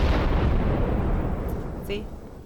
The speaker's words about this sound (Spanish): Pero no lo puedo decir si explotó la bomba.